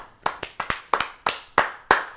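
Hand clapping from the audience at an open mic show: a few sharp, separate claps at a slow, fairly even pace rather than a full burst of applause.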